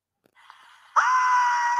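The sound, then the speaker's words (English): A woman screams as flames spread across her right side: after a faint breathy lead-in, one loud, sustained high-pitched cry bursts out and holds steady to the end. “However, her right side was still caught in the flame, and she starts to scream as it spreads.”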